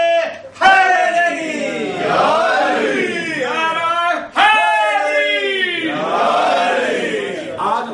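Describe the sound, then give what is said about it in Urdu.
A crowd chanting slogans in unison at a religious birth celebration: two long, loud shouted phrases from many voices, each starting abruptly and holding strong before fading slightly. “اس طرح نعرے لگائیں گے تو پھر میں نہیں پڑھ پاؤں گا.”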